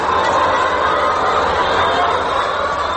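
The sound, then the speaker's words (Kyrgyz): A dense, constant din of about a thousand hens comes from wire cages, four birds to each, in a poultry farm built from metal containers. Clucks and calls blur into a steady, unbroken wash. “Ферма өзү 3 темир контейнерден куралган. Ичиндеги 1000 тоок 2 катарга бөлүнгөн. Ар бир торчого 4 тоок жайгаштырылган.”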